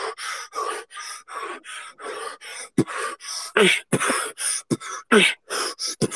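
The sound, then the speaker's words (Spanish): Breathing demonstrated for beatbox practice: many short, airy breaths in a quick, fairly regular rhythm, alternating in and out with brief gaps, some louder and sharper than others, and no speech. “para practicar beatbox es como respirar normal, tipo...”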